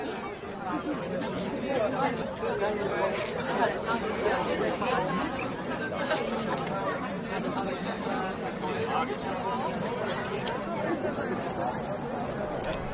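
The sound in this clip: Many people chat at a harbour square on an August summer evening, their voices blending into a steady, even babble of overlapping conversation with no single voice standing out.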